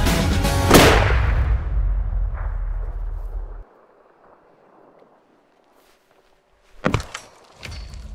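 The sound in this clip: A rifle is fired at a target. A single sharp, loud crack opens with a long fading rumble behind it, then near silence, then a couple of brief knocks near the end.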